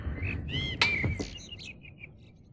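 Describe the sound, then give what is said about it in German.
Blackbirds sing in clear, whistled phrases with quick chirps and trills, the notes fairly faint and gradually thinning out toward the end. “Was sagen Sie zu diesem Amselkonzert”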